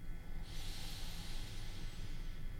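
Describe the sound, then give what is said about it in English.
A deep breath drawn in during a guided relaxation exercise: a soft, steady, airy hiss that lasts about two seconds, heard alone with no talk. “And then close your eyes with it. And take another deep breath in.”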